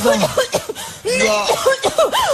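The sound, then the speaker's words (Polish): A woman coughs in a few short, throaty bursts mixed with voiced, breathy sounds, fairly loud and heard alone. “Jeszcze raz, bo kaszlałam.”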